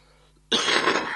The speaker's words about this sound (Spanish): la tos me acompaña en el programa.